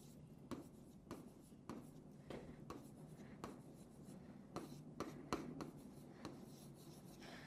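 Pen scratching on paper as the Spanish word "puedo" is written by hand during a language lesson: many short, faint, scratchy strokes in an uneven rhythm, with no talking.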